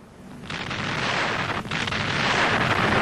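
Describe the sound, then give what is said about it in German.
Bombs exploding as German aircraft bomb a city, a heavy sustained roaring rumble that swells after a quieter opening, dips briefly midway, then stays dense and loud. “Mit vernichtender Wucht trifft jede Bombe ihr Ziel.”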